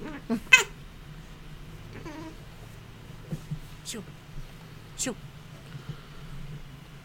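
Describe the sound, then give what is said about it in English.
A house cat lets out a faint, brief meow amid soft background noise, with a few sharp clicks and taps scattered around it. “Yeah, that was my cat.”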